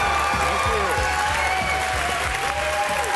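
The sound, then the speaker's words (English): A studio audience gives a congressman guest a standing ovation, with dense, continuous applause that stays loud and even throughout. “You got a standing ovation.”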